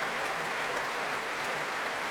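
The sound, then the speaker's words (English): An audience at the Royal Albert Hall applauds a soprano returning to the platform after a BBC Symphony Orchestra performance. Soft, dense clapping patters evenly like rain, with no breaks. “Warmly applauded by everyone here at the Royal Albert Hall and every player of the BBC Symphony Orchestra.”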